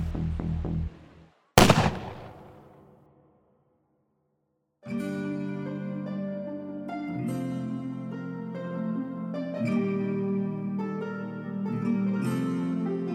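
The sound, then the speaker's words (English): A single pistol shot fired in a rowdy crowd of elves and humans in a fantasy role-play game: one sharp, loud crack that rings out and decays over a few seconds, followed by music. “And as you are jostled by them, one pulls a pistol and fires at Castellan.”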